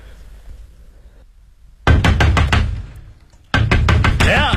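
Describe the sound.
Knocking on a door late at night comes in two bursts of several loud, rapid raps separated by a short pause, and a voice is briefly heard at the very end.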